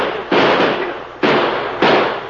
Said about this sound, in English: Shoot at him, boys.